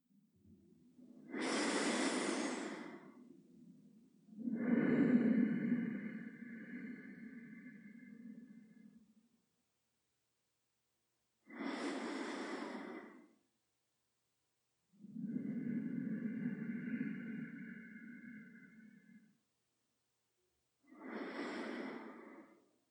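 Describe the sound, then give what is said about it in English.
Slow, rhythmic breathing through the nose in five separate breath sounds. Short, airy inhales alternate with longer, softer, lower exhales, with quiet pauses between them and no talk. “let's just breathe a few low and slow and rhythmic breaths through the nose in preparation.”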